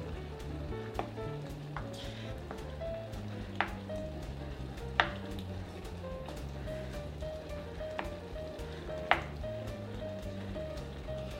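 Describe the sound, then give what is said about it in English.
Cooked garbanzo beans go into a pot of simmering vegan chana masala. A soft, steady sizzle runs throughout, broken by several sharp clinks and taps, with no voices. “And finally, we'll add the cooked garbanzo beans right in there.”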